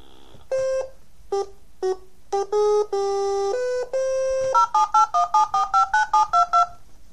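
DTMF telephone dialing tones from a software dialer sound as a series of bright electronic beeps. A few separated tones of varying length come first, then a quick, even run of many short tones.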